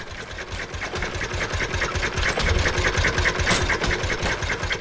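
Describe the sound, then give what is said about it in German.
The engine of the first motor-driven two-wheeler runs as a fast, steady mechanical chatter of rapid regular pulses, loud and continuous from start to finish. “Das erste motorgetriebene Zweirad, gebaut von Gottlieb Daimler und Wilhelm Maybach, fährt von Cannstatt nach Untertürkheim und zurück.”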